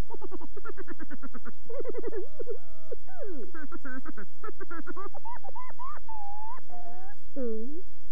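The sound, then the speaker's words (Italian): Rooster crowing played back from a Mego 2-XL talking toy: a loud series of warbling, harmonic calls that end in a few longer, wavering crows. “Non è un re e porta la corona. Non è un orologio e sveglia. Che cos'è? Non lo sai? È il gallo.”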